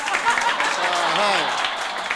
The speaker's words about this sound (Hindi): लो ताली थोड़े जिहा वधाउंदे जाणा भी दोस्तों